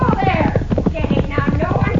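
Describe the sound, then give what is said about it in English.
A horse lunging and rearing, its hooves clopping in a rapid, uneven flurry of many hard knocks, heard under people talking. “The way that horse is lunging and rearing, he's going to hurt that senora.”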